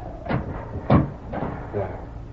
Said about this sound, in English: Wait till I close this door.